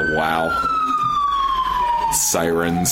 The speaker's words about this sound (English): sirens are good. There's no way of taking this out of our podcast without just redoing this whole part, so enjoy the sirens